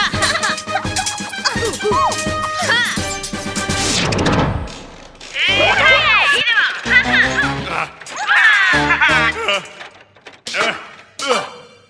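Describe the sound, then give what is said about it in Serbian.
Cartoon children play noisily, with loud, chaotic high-pitched voices, squeals and laughter, broken by a few crashing thumps, in bursts with short pauses between. “Pravi toliko buku! Ova deca se stalno igraju!”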